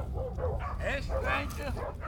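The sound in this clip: A dog barking and yipping outside a family home at the end of a dirt road, a quick run of short, high yelps and whines over a low steady hum.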